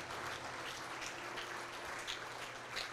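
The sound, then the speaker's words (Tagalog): A church audience clapping for God during a worship service, a soft, steady patter of many hands that stays faint and continuous throughout. “Sige po, palakpakan natin si Lord po dyan.”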